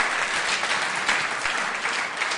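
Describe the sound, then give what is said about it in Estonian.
Sustained applause from a church audience, a dense, even wash of clapping that holds steady at moderate loudness throughout, with no voices standing out. “Anname kõigepealt Jeesusele ühe suure aplausi, sest tema väärib selle täna hommikul iga päev, kas pole nii.”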